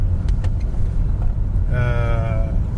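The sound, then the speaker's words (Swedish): Car engine and road noise as a car drives into the old Järva shooting range, now built up with housing: a steady low rumble throughout, with a thin tonal whine appearing over it in the latter part. “Nu kör vi in i gamla Järva skjutbana. Nu mer bebyggt.”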